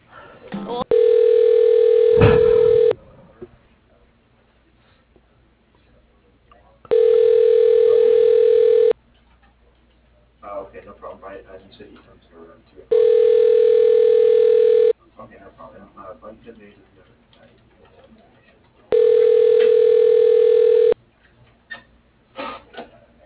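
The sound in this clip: A telephone ringback tone plays while a call is transferred: four steady rings of about two seconds each, separated by pauses in which a voice and faint noises can be heard.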